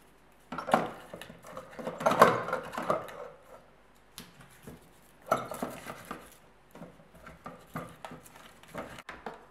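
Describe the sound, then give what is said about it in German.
Whole garlic bulbs clatter and knock as they are dropped into a pot to make black garlic, producing many irregular rattles in uneven bursts, with no talking. “In meinem Fall werde ich den Topf ganz mit Knoblauchknollen füllen.”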